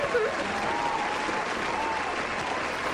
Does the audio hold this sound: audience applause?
yes